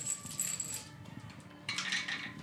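Dice rolled during a tabletop role-playing game, producing a faint clattering rattle, then a pause and another brief, bright clatter.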